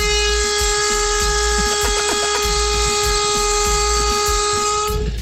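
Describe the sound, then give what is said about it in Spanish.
A train horn blows one long, sustained, steady note through the whole clip over the low rumble of the train, heard at about six in the morning from a car pulled over beside the tracks. “Así es como me gusta el pito a mí, que sea largo, duradero.”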